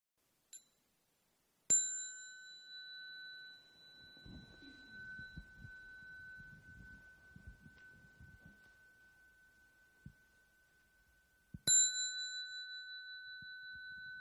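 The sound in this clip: A meditation bell (khánh) is struck twice, about ten seconds apart, during a guided morning meditation and sutra chanting at a Buddhist temple. Each strike gives a clear bright ding that rings on in a long, steady tone, with faint soft rustling in between.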